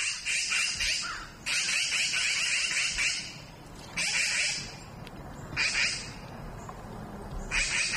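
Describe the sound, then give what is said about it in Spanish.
Magpies call around a dead magpie in harsh, rattling chatter, heard in five loud bursts separated by short quiet pauses. “alguien además lo consiguió grabar y nosotros hemos traído ese sonido, el sonido de ese requiem natural de urracas”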